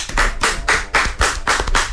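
An audience applauds with loud, dense clapping that swells and dips in a quick pulsing rhythm throughout.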